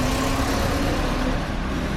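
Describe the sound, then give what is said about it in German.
Road traffic roars on a busy city avenue, Rustaveli Avenue, in a dense, unbroken rumble of cars and heavier vehicles. The wash of engine and tyre noise stays loud and even throughout, with no single vehicle standing out. “Der Verkehr auf dem Rustaveli-Prospekt braust unaufhörlich.”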